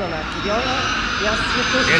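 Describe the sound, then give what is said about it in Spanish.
Aircraft engine roar from a Stuka airplane making a low flyover above a square during an air parade, a steady broad rush heard under continuous talk. “Están pasando las aeronaves tailandesas. Acaba de pasar el Stuka 4, el último avión que nos quedó. Acaba de hacer un vuelo rasante sobre la plaza.”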